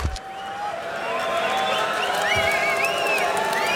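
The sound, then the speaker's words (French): A rock concert audience waiting before the show in front of a darkened stage, a steady murmur of crowd noise with scattered cheers and high whistles rising above it. “Et vous entendez le public qui patiente ici. La scène est plongée dans l'obscurité.”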